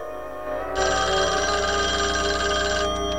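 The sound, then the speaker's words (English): A wall-mounted telephone rings in an expansive kitchen, sounding one long, loud electronic trill that begins after a quiet opening and stops just before the end, with no voices. “The phone rings on the wall.”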